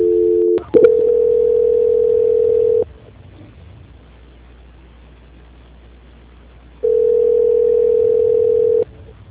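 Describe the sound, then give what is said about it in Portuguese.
Telephone line tone during a call transfer on a bank's customer service line: a loud, constant, mid-pitched hum sounding twice for about two seconds each, separated by a quieter stretch of low line noise. “Então, vou transferir você agora direto, tá? Tá, obrigada. Transferência.”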